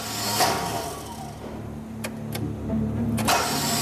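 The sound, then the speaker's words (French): A car engine cranks over without catching, the car out of fuel. A steady churning whir runs throughout, with a few sharp clicks near the end. “On n'a même pas encore démarré le moteur.”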